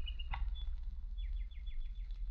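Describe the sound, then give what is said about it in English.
A walking toy bird, found undamaged in a burnt-down house, gives a quick series of faint, high, downward-sliding chirps after a brief click, over a low steady hum. “I found this toy. A walking, chirping bird.”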